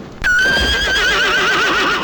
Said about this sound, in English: What do we do with the horse? Is it branded?